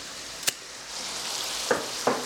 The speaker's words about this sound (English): And we just want to stir it around and get them all coated.